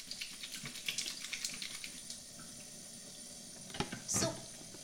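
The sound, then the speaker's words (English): Water running from a tap while hands are washed, a faint, steady hiss broken by soft splashes, with a brief louder gush near the end. “Very important to wash your hands right now.”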